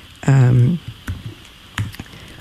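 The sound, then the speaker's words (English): A brief voiced hum leads into typing on a computer keyboard, a few scattered clicks in two loose clusters. “Let me just type it in.”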